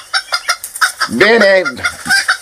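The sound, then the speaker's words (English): A rooster crows in a chicken yard: one loud, arching call in the middle, with short, choppy clucking bursts before and after. “Wait a minute. Where my roosters at? Where my roosters?”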